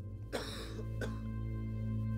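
An old man coughs in two rough, breathy bursts, a longer one followed by a short one, faint over a steady low hum, with no talk.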